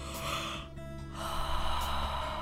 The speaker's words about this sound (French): Inspirez, relâchez. Continuez comme ça. Pas de pause entre l'inspiration et l'expiration.